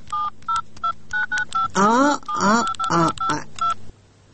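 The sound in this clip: A telephone is dialed, producing a quick series of many short, bright keypad tones in an uneven rhythm, with a voice briefly speaking partway through before the tones stop.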